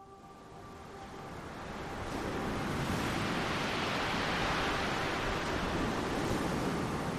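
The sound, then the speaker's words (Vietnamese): Evening waves on the Red River blown ashore by the wind: a steady, broad wash of water and wind noise that swells a little after the first two seconds, then holds loud and even, with no voices. “Buổi tối, tiếng sóng từ ngoài mạn sông Hồng được gió thổi ngược vào trong bờ.”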